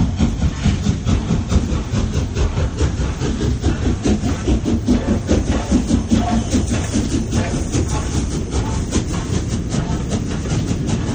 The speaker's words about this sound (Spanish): Esta es la intro. Un poquito larga, ¿no? Es un tren, es lo que tiene el tren, que son largos.